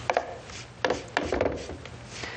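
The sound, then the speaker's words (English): A zester scrapes across lemon rind in a few short, rasping strokes. Each stroke is a brief, dry scratch separated by quiet gaps. “I'm putting the zest of a lemon.”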